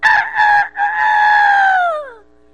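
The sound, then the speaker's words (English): A big white rooster crows from a backyard fence in one loud, drawn-out call that breaks briefly near the start and then sags in pitch as it fades. “My big old white rooster, he jumped up on my backyard fence and stood up there and went,”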